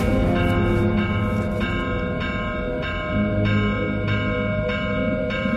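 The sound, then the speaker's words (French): A village church bell sounds the tocsin alarm at midnight, struck over and over in a steady, fairly quick rhythm, each loud stroke ringing into the next. “Vers minuit, l'abbé prévient le maire et lui demande l'autorisation de sonner le tocsin.”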